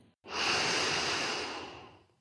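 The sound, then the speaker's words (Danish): A slow, deep inhale during a guided relaxation exercise, a soft breathy hiss that swells quickly and then tapers gradually over about two seconds, heard alone without talk. “Lad os lige gøre det igen. Vi trækker vejret ind”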